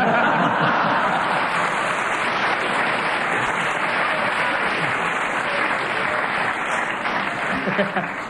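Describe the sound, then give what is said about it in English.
A studio audience applauds with dense, continuous clapping that stays loud and even, then thins slightly toward the end. “And the fact that this audience should clap.”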